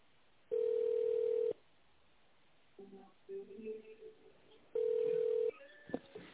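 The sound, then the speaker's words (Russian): Telephone tones while dialing an extension number in tone mode: two long, steady mid-pitched beeps, with a cluster of short pitched tones between them and a brief click of tones near the end. “Если вы знаете внутренний номер сотрудника, наберите его в тональном режиме.”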